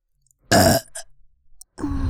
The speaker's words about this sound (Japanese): ドスケベゲップ連発させます